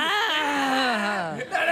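A newborn baby crying in one long, wavering wail that bends slowly down in pitch, followed by a short, rising cry at the end.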